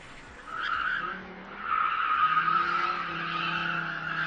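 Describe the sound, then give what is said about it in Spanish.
Tires skid and screech as cars race illegally on an industrial estate. Long, sustained, high squeals come in overlapping waves that swell and ease, over a low engine drone. “No es un videojuego, han vuelto las carreras ilegales al polígono de Bío”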